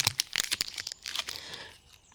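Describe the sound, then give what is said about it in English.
Crisp crinkling and crackling of a chocolate bar's wrapper being unwrapped: a quick run of many sharp rustles that thins out and fades to quiet near the end, with no voices. “All that tasty chocolate that I've got right here could so easily be yours.”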